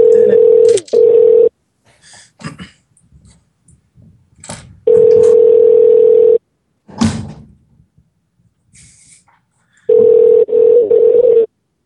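Telephone ringback tone as a call connects: three long, steady, mid-pitched tones separated by long gaps, with faint clicks and small rustling sounds in between.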